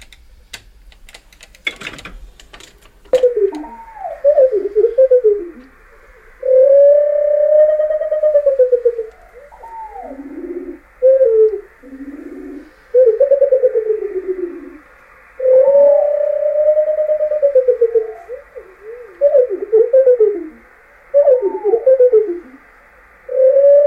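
Slowed-down song of a bird singing in circular flight after climbing: loud, low whistled phrases with slurred rising and falling notes, broken by short pauses and preceded by a sharp click.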